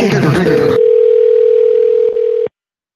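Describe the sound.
A telephone dial tone sounds during a repeated call attempt: a loud, steady single-pitched tone lasting about two seconds that overlaps talking at the start and cuts off abruptly.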